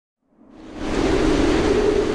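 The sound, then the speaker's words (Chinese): Howling typhoon wind with heavy rain: a dense, roaring wash of noise that swells in from silence over the first second, then holds loud and steady. “有一天，台风来了，在狂风的呼啸中夹杂着暴雨。”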